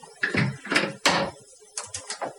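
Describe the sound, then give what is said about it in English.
Dishes being cleaned up give a few sharp clinks and clatters, followed by softer knocks, all fairly quiet. “I think we've got someone cleaning up here at SCB. Looks that way.”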